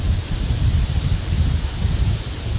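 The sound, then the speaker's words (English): Wind blowing outdoors under northern German clouds, a steady, low-heavy rushing whoosh that gusts gently and never stops, with no voices. “Do you hear the wind, which is now even slightly changing direction? Now it's coming from behind your back in a way.”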